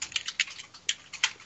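Two dice rolled on a table make a quick run of many light, sharp clicks and clatters, fairly faint and uneven, with no voices.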